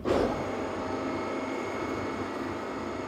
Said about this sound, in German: So, dann Achtung, Bühne fährt.